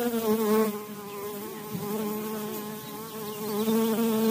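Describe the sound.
Honeybees buzz in the Morgantown garden of a pair of master gardeners: a steady, continuous drone with rich harmonic overtones that swells slightly at the start and end, with no voices.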